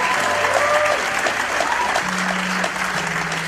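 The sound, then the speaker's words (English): A church audience applauds in a steady, dense wash of clapping, with voices cheering and calling out over it throughout. “Give him a big hand.”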